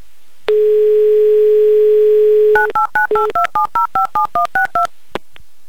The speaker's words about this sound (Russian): Так, номер мы набрали. Будем ожидать соединения с Екатеринбургом, с Викторией.